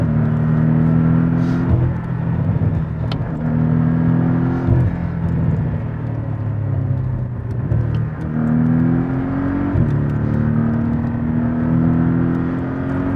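Performance car engine accelerating through a curve: a loud, continuous rumbling drone whose pitch climbs, then drops sharply several times as the revs rise again, with no talk over it.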